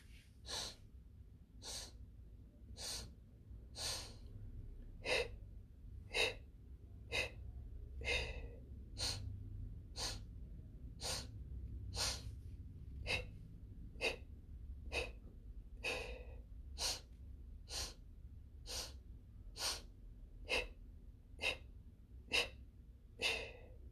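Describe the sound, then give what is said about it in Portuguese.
Paced breathing exercise, inhaling through the mouth and exhaling through the nose on four counts each: many soft, even breaths in a steady rhythm of roughly one per second, alone without talk. “Depois inspira pela boca em quatro tempos e solta pelo nariz em quatro tempos. Se você puder fazer isso por três minutos, é muito interessante. Vamos fazer aqui por um minuto.”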